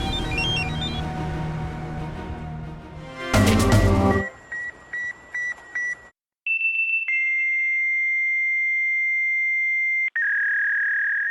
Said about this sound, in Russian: Если вы слышите этот звук, и вам меньше 30, вы, вероятно, думаете, что это сломался терминал оплаты. Но для всех остальных это звук офисной жизни 80-х и 90-х. Это звук факса.